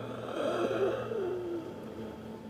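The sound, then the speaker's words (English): A voice imitates a creature's slow inhale, a drawn-out, raspy, wheezing breath with a low tonal hum, lasting about two seconds on its own. “the jaw slack and open, a void, a darkness, the arms stretched out, extended, as it begins to inhale.”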